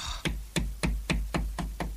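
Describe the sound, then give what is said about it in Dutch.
Knocking on a door: a steady series of evenly spaced hollow raps, close to four per second, each sharp and clear with no talk over them. “Wie tikt daar? Oh, Ernie. Ernie, dat zal hem zijn, Ernie.”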